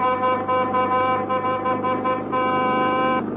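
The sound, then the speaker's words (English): A car horn sounds to signal a wish to overtake. It is a sustained, buzzy, multi-toned honk lasting about three seconds with one brief break near the end, heard alone and fairly loud. “A sound horn, please. Indicate desire to overtake.”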